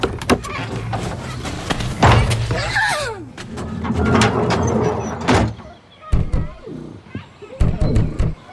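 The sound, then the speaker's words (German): A shed door is opened with knocks, thuds and a sliding scrape amid lively talking voices. “Wenn sie jetzt wieder hierher rast, dann spring zur Seite und mach die Schuppentür weit auf.”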